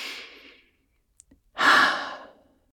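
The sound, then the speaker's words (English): A deep breath in and out: a soft drawn-in inhale fades to silence, a tiny click follows, then a louder, breathy exhale that trails away. “Let's take a breath in and out.”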